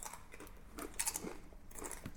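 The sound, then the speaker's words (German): Crunchy chewing of cheese tortillas: a few crisp, faint crunches with no talk. “zum Abschied sollen wir uns nochmal den Mund voll nehmen mit Käse-Tortillas”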